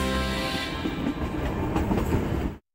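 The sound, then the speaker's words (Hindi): A train running through the hills near Kangra gives a steady, low rumbling roll with faint rhythmic clatter from the carriages, then cuts off abruptly at the end. “तो आप भी अगर पहाड़ों पर घूमने जाने की सोच रहे हैं तो इस ट्रेन की सवारी एक यादगार सफर साबित हो सकती है।”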